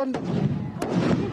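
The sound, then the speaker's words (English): Sharp gunfire-like bangs as police fire rubber bullets and a stun grenade at church congregants refusing to leave the premises during lockdown: two loud cracks cut through a dense, noisy din of voices and commotion. “police again firing rubber bullets at these church congregants who are simply refusing to leave these premises, and they've just fired another stun grenade.”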